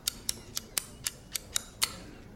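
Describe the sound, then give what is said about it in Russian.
Abacus beads clicking as a young mathematician checks figures at a desk: eight crisp, bright clicks in quick succession at slightly uneven spacing, faint and alone. “Нараяна берет счеты и проверяет.”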